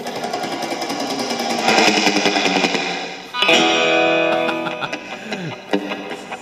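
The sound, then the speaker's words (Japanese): Electric guitar soaked in wet reverb, played with a gritty, rapidly picked tremolo tone. A chordal wash builds, then cuts off briefly. A fresh loud chord rings out and decays into a long, shimmering tail with a few scattered notes. “なんでそんな濡れた音なんですかねいつも思うんですけど、 リバーブですね”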